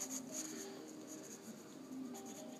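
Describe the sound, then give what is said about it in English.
A pencil draws and shades on paper, giving a faint, continuous scratchy rasp of steady strokes with no voices. “Are you drawing them? Is it like...”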